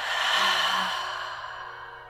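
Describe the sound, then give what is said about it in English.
Long, loud exhale during a guided meditation breathing exercise: a single airy breath, strongest at the start and gradually fading over about two seconds, with no talking. “Biggest breath in of the day. Fill every nook and cranny inside of you with fresh breath. Loudest, longest exhale yet.”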